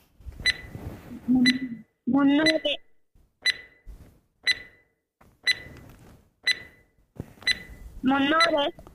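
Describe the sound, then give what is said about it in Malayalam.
A quiz countdown timer, set for 20 seconds, runs with short, regular ticks about once a second. Brief bursts of voice rise between and over the ticks. “ഇൻഷാ നമുക്ക് timer start ചെയ്യാം. ഉമ്മാനോടൊക്കെ ചോദിച്ചിട്ട് എന്ത് ചെയ്യാം? ഉത്തരം പറഞ്ഞ 20 second timer start ചെയ്യണം.”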